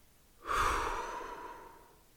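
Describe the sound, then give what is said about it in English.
A person takes a single long, audible breath during a guided mindfulness exercise. The breathy, sigh-like exhale starts suddenly and fades gradually, with no other sound around it. “I want you to do that for me now. Breathe in, breathe out”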